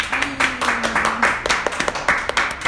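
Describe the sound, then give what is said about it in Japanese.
Scattered hand claps from a few people in a radio studio, with separate claps in an uneven rhythm and short gaps between them. “拍手が増えた、拍手が増えております。”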